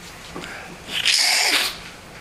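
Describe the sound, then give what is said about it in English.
A single loud snort or sneeze-like nasal burst from a person with allergies, rising sharply and lasting about a second before cutting off. “Please excuse my snorting. I have terrible allergies now.”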